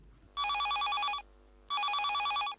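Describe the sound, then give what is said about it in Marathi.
A telephone rings in two long bursts of bright, warbling trill separated by a short pause. The ringing is loud and steady, with no voices. “चला तर मग श्रोते हो सुरुवात करूया या फोनने.”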